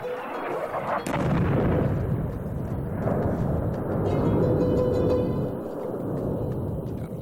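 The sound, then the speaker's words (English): Heavy Saudi airstrikes pound Yemen in a continuous, dense, loud rumble of low booms that rolls without a break, with one sharper crack standing out near the start. “After a short ceasefire, Saudi Arabia resumed its heavy airstrikes.”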